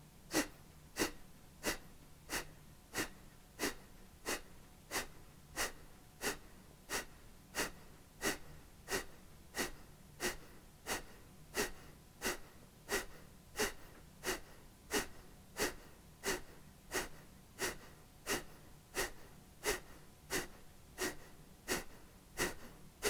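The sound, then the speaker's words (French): Kapalabhati yoga breathing: many sharp, forceful nasal exhalations repeat at an even, brisk rhythm. Each is a short puff separated by quiet passive inhalations, and the pattern continues steadily and softly throughout. “Donc pendant Kapalabhati, vous êtes actif sur le temps d'expire,”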